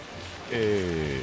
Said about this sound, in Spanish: Y lo que están ustedes oyendo es el agua que cae sobre una laguna, no sobre la tierra.